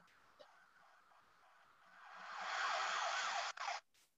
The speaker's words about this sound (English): Sirens, police sirens, could be ambulance. Fire engine.